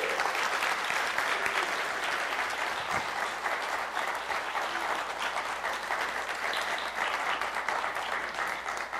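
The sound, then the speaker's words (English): Sustained applause from an audience welcoming a visiting church group, Temple Baptist Church from Hattiesburg, Mississippi: dense, continuous clapping at an even, fairly loud level throughout. “So why don't we welcome them and give them a hand.”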